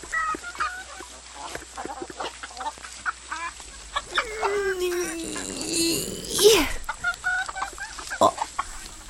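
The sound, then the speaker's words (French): Hens clucking in a henhouse at laying time, with many quick, uneven cackling notes throughout. A long downward-sliding tone runs through the middle, and a sharp, louder squawk comes near the end. “Au poulailler, c'est l'heure de la ponte. Sous le regard attendri de leur maman, les petites poules s'appliquent et se donnent beaucoup de mal.”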